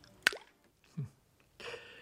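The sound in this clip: False teeth drop into a glass of water with one sharp, small plop, followed by a couple of softer sounds.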